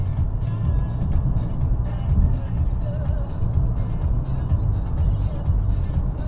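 Steady low engine drone from a BMW car cruising in sixth gear at about 2,000 RPM and 100 km/h, a continuous even rumble with no revving or gear changes.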